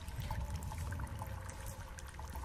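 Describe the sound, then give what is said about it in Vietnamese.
Water flows inside a cave as a steady, faint trickling rush with a low rumble beneath it, holding an even level throughout. “Ông Vương nghe thấy tiếng nước chảy đâu đó ở trong hang, đúng hơn tiếng nước đang chảy phát ra đằng trước.”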